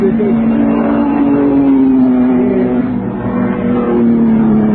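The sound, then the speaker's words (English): Engine of a Bugatti Type 51 racing car running regularly on a race course: a loud, continuous droning engine note with a strong steady pitch that drifts only slightly, holding without a break for nearly five seconds. “There's a Type 51 Bugatti on the course somewhere, going very regularly, very nicely. We'll see it go round in a minute.”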